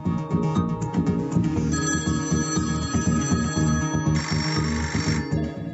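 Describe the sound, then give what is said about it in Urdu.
A telephone rings as a listener phones in. The electronic ringtone is bright and layered, continuing without pause at a steady level for the whole clip. “چلیے جنوبی وزیرستان سے ایک سامع کی کال سے شروع کرتے ہیں”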